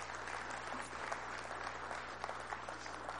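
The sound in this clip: An audience applauds to welcome people being introduced at a ceremony, a steady, even wash of clapping that holds at the same level for the whole stretch.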